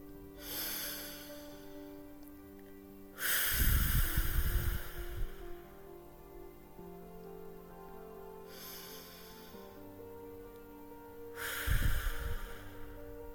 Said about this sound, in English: I need to breathe. So let's breathe together.